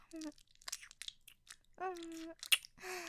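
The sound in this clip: Gentle nibbling and mouth sounds on an earlobe: soft, wet clicks and smacks come in a few short bursts, mixed with brief hummed vocal tones, all quiet and intimate.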